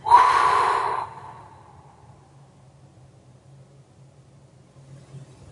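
A deep, breathy exhale during a relaxation breathing exercise for stress prevention, loud at first and tapering off after about a second into near silence with a faint low hum.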